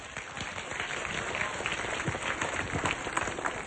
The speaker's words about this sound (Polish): Brawa dla Damiana.